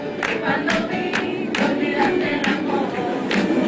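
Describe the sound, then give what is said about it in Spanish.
A crowd cheers and shouts while loud claps land in a steady, regular rhythm, the roar of voices continuous beneath the beat. “Miren cómo arrancó el aplauso.”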